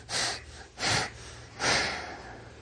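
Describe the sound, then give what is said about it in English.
Three sharp, forceful breathy exhales tighten the belly while holding a yoga pose. The bursts are evenly spaced, and the third is slightly longer than the first two. “Rodney Yee, he exhales three times in this position to get the belly tight. Try it. So you do three sharp exhales.”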